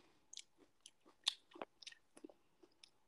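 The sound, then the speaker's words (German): Someone chews pears with many soft, wet crunches in an uneven rhythm, quiet and with no other sound. “ich esse gerade Birnen.”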